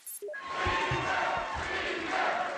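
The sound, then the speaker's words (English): A crowd of energized Republicans in the Capitol cheers and chants on election night. After a brief tone at the start, a loud, dense roar of many voices holds steady to the end. “They are chanting Speaker for the man who is now poised to take over as Speaker of the House, John Boehner.”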